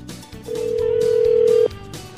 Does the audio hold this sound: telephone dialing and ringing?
yes